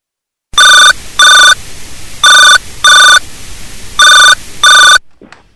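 A telephone rings in three pairs of loud, steady electronic double rings separated by short pauses, with no talk over it.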